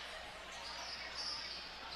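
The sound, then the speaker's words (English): A basketball is dribbled on the court during a girls' game against Greene County Tech, its bounces soft and faint against a steady background hiss. “Pfeiffer will dribble toward the top, gives it there to Foreman.”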